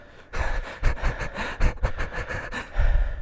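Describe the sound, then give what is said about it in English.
Breathing close to a sensitive microphone: many quick, rough breaths and puffs in an uneven rhythm, loud, airy and breathy, with no talk over them. “I'm like away from the mic and you can like hear my breath.”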